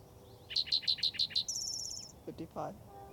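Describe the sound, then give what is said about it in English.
A spotted towhee sings in the Gibson Jack area: six quick, high chirps are followed by a rapid, buzzy trill, then a few softer, lower notes against a quiet background. “Spotted towhee number 2 for the Gibson Jack area.”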